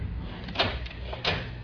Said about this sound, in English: I'll just lock the door while the safe is open.